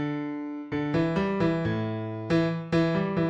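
A bass guitar line from a rock song's chorus, played solo: a held low note gives way to a steady run of plucked notes, dipping lower mid-phrase before climbing back, each note clear and ringing.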